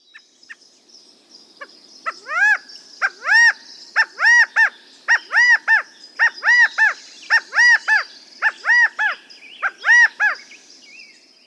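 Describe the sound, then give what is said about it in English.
California quail song: many loud, clear, arching calls repeated in quick groups of two or three, fairly high and bright, standing out alone against a quiet background with a few softer calls at the start and end. “That was a song of the California quail.”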